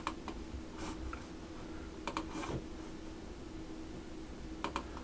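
Quiet keyboard keystrokes and mouse clicks as a name is typed to sign off an email and send is clicked, heard as a few sparse clusters of light taps.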